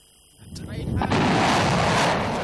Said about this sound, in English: The Mersads launched their missiles one after the other. Missiles are called Shaheen and are domestically produced by Iran.